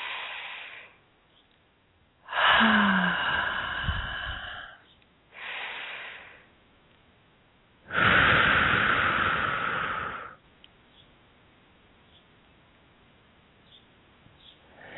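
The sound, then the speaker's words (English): Deep breaths during a guided meditation, drawn in through the nose and let out through the mouth: a few long, airy breaths separated by quiet pauses, with no talk. “So again, deep breath in through the nose and out through the mouth.”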